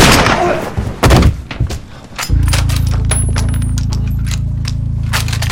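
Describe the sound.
A rifle fires after jamming, giving sharp, loud bursts, followed by a steady low droning hum that continues to the end.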